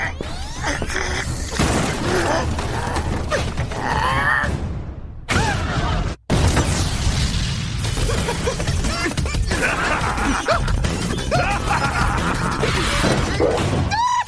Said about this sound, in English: Did you think you'd escape me with a tear gas bomb?